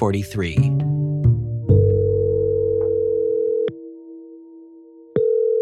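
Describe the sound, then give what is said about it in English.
Telephone dial tone as a call is placed: brief talk at the start, then a steady electronic tone held for several seconds. It drops in level after a click and returns louder after another click. “And so, I phone up Kelly, Mickey Rooney's daughter.”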